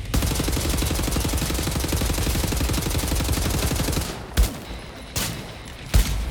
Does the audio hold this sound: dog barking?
no